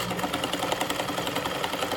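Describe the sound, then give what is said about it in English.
A sewing machine stitches fabric face masks for medical workers, its needle driving in a rapid, even mechanical rhythm that runs steadily throughout with no talking. “locals have put sewing machines to work to make different types of masks for local medical professionals”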